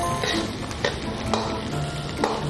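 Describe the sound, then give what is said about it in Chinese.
Garlic, green garlic, a spoonful of Guizhou fermented chili paste and chopped green peppers stir-frying in a pan, giving a loud, steady sizzle with faint scraping of the stirring utensil throughout. “放蒜、青蒜，放一勺贵州的糟辣椒，一掀，放切好的青椒”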